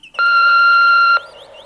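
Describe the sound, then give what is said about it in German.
An answering machine beep sounds as a single loud, steady electronic tone lasting about one second, followed by quiet. “Hier ist der automatische Anrufbeantworter. Wir sind gerade nicht zu Hause. Sie können nach dem Signal eine Nachricht hinterlassen.”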